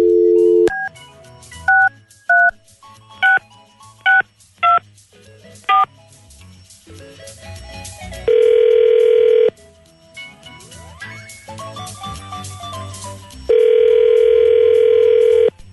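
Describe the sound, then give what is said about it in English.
Telephone dialing on a touch-tone phone: several short key-tone beeps at irregular intervals, then two long, loud steady tones with softer tones between them. “Dialing at random.”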